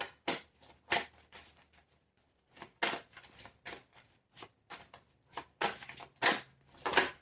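Tarot cards being shuffled and drawn: many crisp, sharp snaps and flicks in an irregular rhythm, fairly quiet, with no voice.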